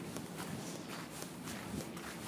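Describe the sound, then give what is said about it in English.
Footsteps squelch through a very muddy stretch of ground, a faint series of several soft, evenly paced steps with no talk over them. “Just walking through I think this is a truly muddy, muddy part.”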